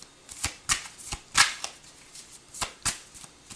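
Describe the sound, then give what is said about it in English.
Tarot cards shuffled for a reading: many crisp, papery riffling snaps in an irregular rhythm, some sharper and louder than others, with no talk. “Let me go ahead and take some cards. May I have some cards, please, for Virgo?”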